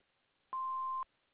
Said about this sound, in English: Please leave your name and number after the beep.